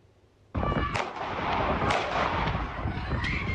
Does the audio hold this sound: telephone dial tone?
no